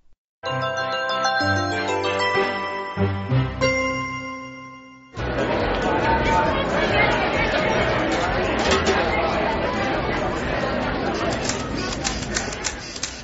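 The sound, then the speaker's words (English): Excited crowd chattering before a New Year countdown: a few seconds of bright chiming music open, then a dense, loud hubbub of many voices fills the rest without a break. “I'm standing in front of the excited crowds who are ready for the New Year countdown.”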